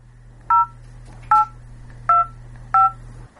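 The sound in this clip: Four telephone keypad tones punch a four-digit date into an automated movie-booking phone line: short, evenly spaced beeps of equal loudness over a faint steady hum.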